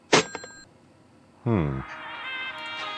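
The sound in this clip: PayPal donation notification, a brief bright electronic chime at the very start, followed by a man talking.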